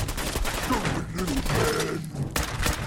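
Rapid gunfire from a first-person shooter video game, with dense, overlapping bursts of shots running steadily through the whole stretch.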